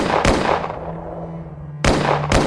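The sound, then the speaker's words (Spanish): Pistol gunshots as a sound effect: three sharp, loud cracks, one near the start and two close together near the end, each with a lingering decay and no talk. “disparó dos veces contra cada uno de los serenos.”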